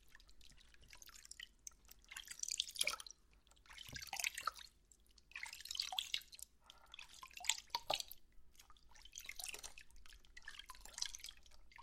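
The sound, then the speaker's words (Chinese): Faint water flushing and running in several irregular gushes and splashes, with drips between them and quieter gaps. “冲水了”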